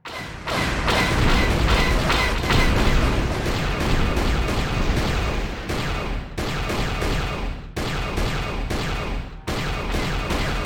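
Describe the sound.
Dense turret gunfire from a space combat section of a 2001 video game, fending off enemy fighters, with loud rapid bursts and booming impacts running almost continuously, broken by a few brief gaps.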